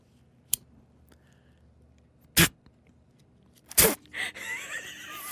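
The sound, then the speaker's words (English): Three sharp, separate clicks from a small plastic clip attached to a building key card, spaced over a few seconds, followed by a rougher rustling noise near the end. “this is a little clip thing from my key card to get into the building”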